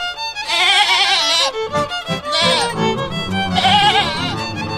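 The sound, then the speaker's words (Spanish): Goats bleat on a farm in Santiago del Estero, Argentina, where they are raised organically: several long, wavering, nasal bleats with strong vibrato, overlapping and loud, with quieter animal sounds between them. “Llega Incupo y nos habla de la cría de cabras, pero estas cabras se crían de una forma un poco distinta.”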